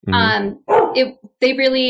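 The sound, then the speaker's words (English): A dog barking: a few loud, harmonic barks in quick succession, with short gaps between them. “my dog just barked.”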